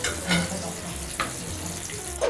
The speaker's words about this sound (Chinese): 这边就花一点时间把它炸硬一点。